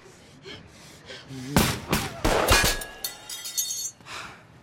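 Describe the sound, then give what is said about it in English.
Sniper gunfire in an audio drama strikes a mirror poked around a corner: a few sharp, loud cracks mixed with breaking glass, followed by lighter clinking debris. “Doyle pokes a mirror around the corner to see what's happening, and it's immediately shot at by the sniper.”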